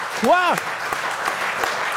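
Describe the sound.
Audience applause for a guest, with a voice calling out briefly near the start, followed by a steady wash of clapping and a few sharper claps standing out.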